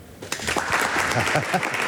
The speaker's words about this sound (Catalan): Ara el sento. Aplaudiu més, home!